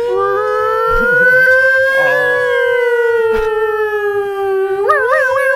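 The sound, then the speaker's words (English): A human voice imitates an old police siren: one long sustained wail that climbs slowly, holds, then sinks gradually and breaks into a wavering warble at the end, with brief other voices faintly underneath. “The long one does sound like an old cop siren.”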